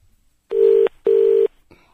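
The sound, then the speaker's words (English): Telephone keypad dialing tones: two steady, even beeps of the same pitch in quick succession, separated by a short gap, with no talk and only faint background. “I've dialed Basil. I didn't want to do that.”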